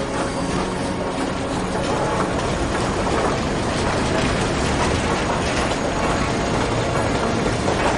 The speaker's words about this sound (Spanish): El hombre observa entristecido cómo el tren se aleja.